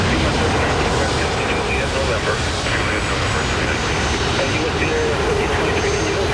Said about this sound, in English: At the airport, a plane lifts off and others line up.